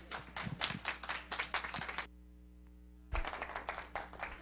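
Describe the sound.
Audience clapping welcomes a speaker to the stage at an event in Slidell. The dense, steady clapping breaks off briefly midway, leaving a low hum, then resumes just as strongly.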